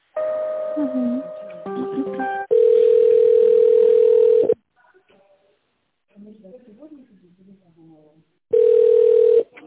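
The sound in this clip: Telephone ringing tone on an office line while a call is being connected: a loud, steady mid-pitched tone in two long pulses with a quiet gap between them, preceded by a burst of mixed stepped electronic tones.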